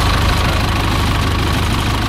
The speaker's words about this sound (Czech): Poslední desítky metrů obstarává postarší traktor Zetor, který Albatrose odtáhne do areálu Leteckého muzea ve Kbelích na jeho nové místo.